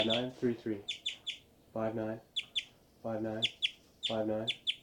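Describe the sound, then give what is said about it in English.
Birds giving flight calls while flying around: repeated harmonic, slightly nasal call notes in short bursts alternating with higher, thin chip notes, arriving in rhythmic clusters at a faint level with quiet gaps between. “birds are flying around giving a lot of flight calls, and these are the birds”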